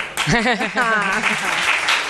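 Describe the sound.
Studio audience applause swells into a dense, steady patter of clapping, with a lively voice ringing out over it at the start.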